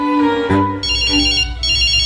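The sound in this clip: A telephone ringtone for an incoming call plays loudly on its own: a melodic electronic tune with bright, repeated high beeping tones.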